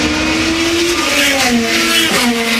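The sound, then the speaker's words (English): IndyCar race cars scream past at the Freedom 250 Grand Prix, a street race in Washington, D.C. The loud, high engine whine stays continuous and steps down in pitch a few times. “And of course, it's that IndyCar race, even for well-traveled fans and drivers at track with the U.S. Capitol in the background.”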